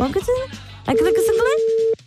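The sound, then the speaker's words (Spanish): A telephone line tone heard while a call is dialed: a steady, single-pitch tone that holds for about a second, with a person talking just before it and over it. “Creo que estoy marcando bien. No sé si estoy llamando bien. A ver, vamos a ver si contesta.”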